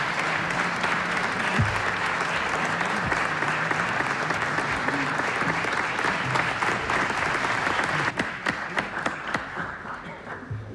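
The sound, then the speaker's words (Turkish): Audience applause at a Turkish folk music choir concert as the choir conductor is welcomed on stage: dense, steady clapping for about eight seconds, then thinning to scattered claps. “Ve ben koromuzu yönetecek şefimiz Soner Özbilen'i alkışlarla huzurunuza davet ediyorum.”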